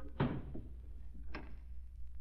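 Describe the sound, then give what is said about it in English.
In a radio drama effect, a door is unlocked and opened with a few short wooden thuds and clicks, separated by brief pauses. “Here's the key. Lock the door behind us. Quietly, Marco, quietly. Step in.”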